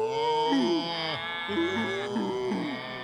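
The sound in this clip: Cattle mooing after a roundup, a herd just driven through a chute: several drawn-out, overlapping moos with sliding pitch, sounding one after another over a constant low hum.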